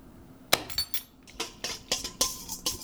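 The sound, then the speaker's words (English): A whisk stirring yeast into water in a bowl, heard as a series of sharp, irregular clinks and taps against the bowl, with no voices. “And I'm speeding it along with a whisk a little bit.”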